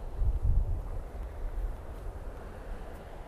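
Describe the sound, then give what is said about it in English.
Strong wind blows through an open spot under old power lines, with no trees for shelter. It comes as low, rumbling buffeting, with heavier gusts at first that settle into a steadier, softer rush. “Listen to the sound of the wind in this spot that I'm in right now. There's no trees here. There's some old power lines above my head. There's no protection. So we're getting a lot of wind noise.”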